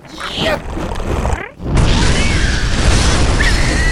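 A loud explosion set off from behind barricades to ignite methane erupts after a brief lull, then rolls on as a dense, sustained roar to the end. Softer rumbling comes before the blast.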